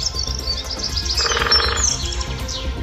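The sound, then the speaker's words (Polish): Birds chirp and squabble in a burst of high, overlapping tweets and squeaks, with a busier cluster of calls around the middle of the short, fairly loud clip. “I wszystkie ptaki zaczęły bić się.”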